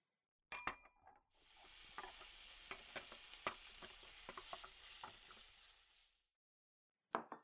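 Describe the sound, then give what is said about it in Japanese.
Meat sizzles in a frying pan, a steady bright hiss lasting about five seconds, with utensil clinks and scrapes mixed in and short clatters of cookware just before and after. “なんだ、肉を焼いただけか。いかにも男の料理といった感じだな。”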